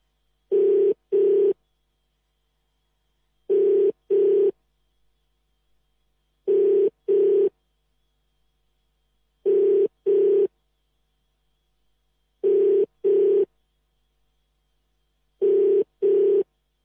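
Telephone ringback tone on an outgoing call: six evenly spaced pairs of short, steady mid-pitched rings, each pair separated by a few seconds of silence, clear and alone with no voices.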